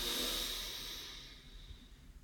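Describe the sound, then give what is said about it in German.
Deep breathing in and out: a long, airy exhale hisses loudly at first and gradually fades, followed by softer, quieter breaths. “Atme einmal tief ein und wieder raus. Atme nochmal tief ein”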